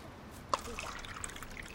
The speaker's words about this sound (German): Und dann gibst du Wasser aus der Thermoskanne hier in die Schälchen. Es ist noch warm.